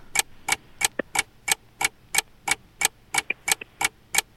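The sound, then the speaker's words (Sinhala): A quiz timer ticks steadily: sharp, evenly spaced ticks about three per second, a few fainter clicks slipping in between, with no voices over it. “වේලාව අපිට සද්දයක් එනවනේ. නිකන් ටික් ටික් ගාන එක මොනවා හරි ඔබනවා වගේ සද්දයක්.”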